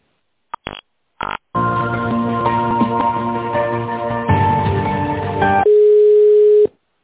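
A telephone line sounds while a call is being transferred. A few brief beeps come first, then several seconds of steady multi-tone sound, and it ends in a long single pitched tone.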